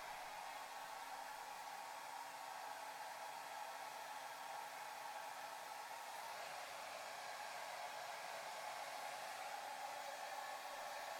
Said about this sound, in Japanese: 毛の流れもしっかりさせつつ、乾かしてと。